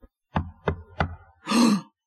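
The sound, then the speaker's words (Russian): Three sharp knocks on a door, evenly spaced about a third of a second apart, followed by a short, broader burst of noise before silence. “Ой, стучат. Кто-то к нам пришел.”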